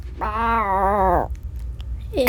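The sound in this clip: A person's voice imitates a jaguar with one drawn-out, wavering yowl lasting about a second, followed by quiet.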